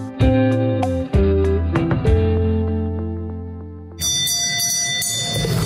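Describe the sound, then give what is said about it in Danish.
A bell rings in the Danish parliament chamber. A few struck strokes each leave long, steady ringing tones, and a loud rush of noise takes over near the end. “Og den her lyd, det er lyden af Folketingets klokke, der ringer demokratiet ind.”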